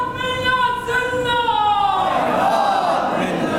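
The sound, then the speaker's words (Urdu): Crowd chanting a religious slogan of devotion to Hussain, a loud, drawn-out sung call with held tones that slide downward into a broader wash of many voices. “حسینیوں کے لیے یہ عظیم نعرہ ہے”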